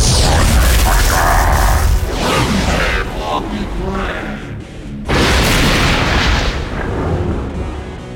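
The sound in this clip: Heavy booming blasts from a fireball spell colliding with a frost spell in a fantasy battle. A loud rumbling burst opens, the roar eases, and then a second sharp blast hits about midway through.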